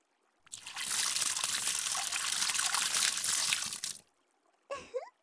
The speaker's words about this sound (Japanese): はい、流しますよ。目はちゃんとつむっていてね。